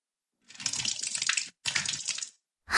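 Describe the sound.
Hot water splashes and spills onto a floor in two steady, hissing bursts, the first about a second long and the second shorter, with a third burst starting at the very end.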